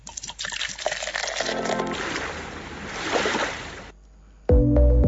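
Liquid pours from a bottle into a glass with a gurgling, splashing trickle lasting about four seconds, then a brief silence before music starts.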